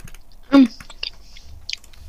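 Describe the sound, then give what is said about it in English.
Nibbling and chewing on a Kinder Surprise–flavoured chocolate bar: one loud, crunchy bite burst, then quieter scattered chewing clicks and smacks, with no one talking. “Have a nibble. Let me know what you think.”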